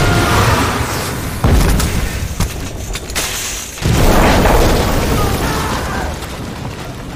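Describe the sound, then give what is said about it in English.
An explosion destroys a command headquarters: a loud, deep, rumbling blast with two heavy surges, the second erupting midway and rolling on into a long, dense roar. “Target engaged! Fire!”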